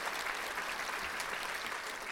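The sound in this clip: An audience applauds to welcome a panelist, the president of a national medical association, to the stage at a conversation event, with dense, steady clapping and no voices throughout.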